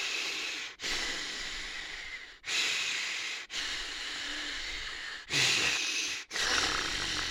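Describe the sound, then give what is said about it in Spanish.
Deep, deliberate breathing from a man trying to calm down: a run of long, loud, airy inhales and exhales, each separated by a short pause, with no talk over it. “Tranquilícese, respire, a ver, ¿qué ocurre? ¿Hay algún problema? ¿Pasa algo? Tranquilo, cuéntenoslo todo desde el principio, ¿vale? Vale, muy bien, a voy a respirar.”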